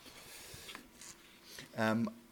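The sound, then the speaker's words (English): Pen scratching as equations are written down, faint, short strokes at a quiet level, with a brief voice near the end. “I will also just quickly write down that with writing E equals gamma m and p,”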